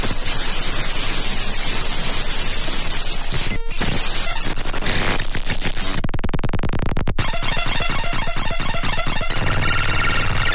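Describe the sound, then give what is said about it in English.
Harsh white-noise hiss fills a stereo synthesized sound file, mixed with buzzing tonal layers that pulse in rapid repetitive bursts. It is loud and dense throughout, with a sharp break near the middle. “So there's some white noise and some tone.”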